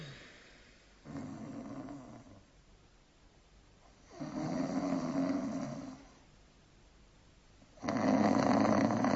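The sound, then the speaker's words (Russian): Someone snores in three long, rasping breaths separated by quiet pauses, each drawn-out snore louder than the one before. “Тихо! Мне показалось, кто-то храпит.”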